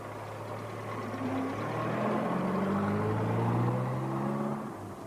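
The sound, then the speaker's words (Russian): Car engine of a departing official's car pulling away, a steady hum whose pitch rises as it accelerates, holding fairly loud before easing off at the end. “Услужливо закрывает дверь машины отъезжающего начальника.”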